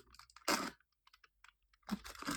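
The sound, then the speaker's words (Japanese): Antibacterial aluminium foil being handled: a loud crackling crinkle, then a run of faint, scattered crinkles, then another loud crackly burst. “アルミホイルか、音入ってますかねまず、このアイテム。アルミホイルですね。”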